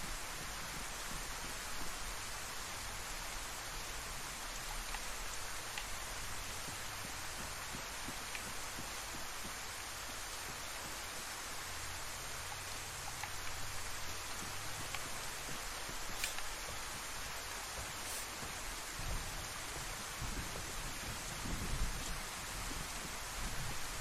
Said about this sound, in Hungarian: Én itt közben ázok az esőben, de annyi baj legyen.